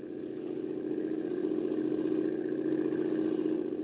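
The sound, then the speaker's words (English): A motorboat engine runs steadily, a low, even droning hum with a slight pulsing texture, constant in loudness throughout with no revving and no voices. “You better shut off the motor”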